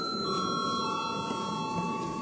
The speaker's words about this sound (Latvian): Lūdzu zvanu.